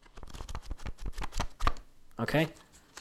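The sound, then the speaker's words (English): Fake paper money, a stack of hundreds held in the hand, rustles and flicks in quick, crisp papery bursts. A voice speaks briefly near the end. “What you're hearing is money. You're hearing fake money in my hand.”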